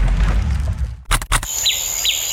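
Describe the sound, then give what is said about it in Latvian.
Birds sing in a meadow: two short, high, descending chirps, fairly faint, come after a few brief bursts of noise. “Te, kur mēs dzīvojam, ir pļava un putni dzied.”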